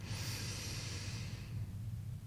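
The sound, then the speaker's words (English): A slow outward breath during guided breathing: a soft, faint, breathy hiss that lasts about a second and a half, then fades into quiet. “And breathe out. And again into the heart,”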